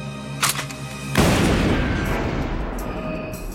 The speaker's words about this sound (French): Un dragon céleste tire sur Okji et le blesse.